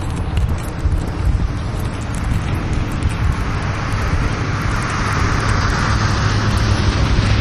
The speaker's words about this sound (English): we're very close to the road here, out in front of the scene. I can hear the road over to my right.